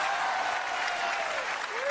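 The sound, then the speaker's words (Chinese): An audience at a live stage comedy performance applauds with dense, steady clapping that holds at an even level throughout. “观众怎么不能鼓掌呢？我这刚要鼓掌，真是的。”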